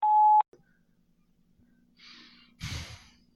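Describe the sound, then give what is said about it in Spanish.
A loud, steady answering machine beep plays once, then cuts off to a faint low hum with a couple of soft breathy exhales afterward. “Por favor, deja tu mensaje después del tono.”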